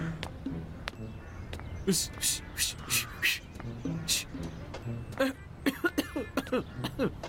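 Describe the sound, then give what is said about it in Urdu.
A man coughs several times in harsh, raspy bursts of varying loudness, with speech mixed in between and after the coughs. “کھانس رہے ہیں آپ؟ آپ تھوڑے دن سے کھانسی آ رہی ہے۔”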